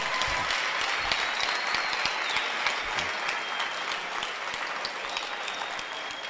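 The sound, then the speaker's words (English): Applause from an audience clapping for a girl's parents at a live event, a dense, steady wash of many hands that holds at an even loudness for the whole stretch. “Let's clap for her parents.”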